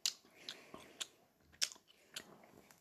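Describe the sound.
Chewing of a soft, very sticky, artificially pineapple-flavoured sweet. A few faint, moist clicks and squelches come in short bursts about half a second apart, quiet and without talk.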